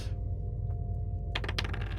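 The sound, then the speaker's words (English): Dice roll during a tabletop roleplaying game. After a quiet stretch, a short burst of hard, bright clicks and clatter comes near the end. “I mean, let her roll first. Maybe she hits a nat 20 straight off the bat. 4 on the dice.”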